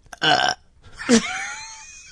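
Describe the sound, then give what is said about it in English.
A woman's fake burp made on command: two croaking belches, a short first one and then a louder one that trails off more slowly. “That was fake. I could have burped on command”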